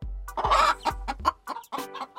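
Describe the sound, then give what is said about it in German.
Hens cluck in a barn coop, giving a series of short, throaty clucks in irregular bursts with brief gaps between them. “Hühner mag ich auch sehr gerne. Manchmal hole ich ja auch Eier bei den Hühnern im Stall.”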